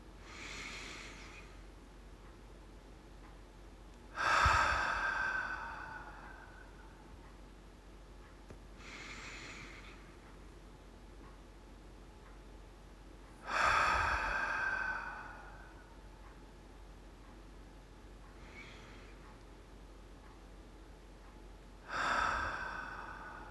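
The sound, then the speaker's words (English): Slow, deep breathing during a guided relaxation exercise. Three loud, breathy exhales through the mouth come several seconds apart, each preceded by a softer inhale, with no talk. “Hold it for a few seconds and then exhale through my mouth and hold that for a few seconds. So let's do this together.”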